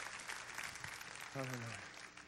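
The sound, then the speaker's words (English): A church audience claps along, a faint, steady patter of many hands, with one voice calling out briefly over it near the middle. “Would you clap your hands if you believe that right now?”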